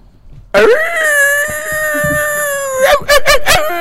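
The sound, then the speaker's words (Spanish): A person imitates a dog, holding a long, wavering, howl-like wail and then breaking into a few short, sharp barks at the end, loud and alone without other voices. “Ladridos tejanos llenos de reflexión.”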